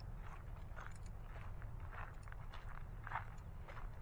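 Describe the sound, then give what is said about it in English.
Footsteps walk down a hill toward a cemetery on a park trail, a few soft, faint crunching steps in a loose rhythm over a low, rumbling background. “So I'm walking down a hill towards the cemetery”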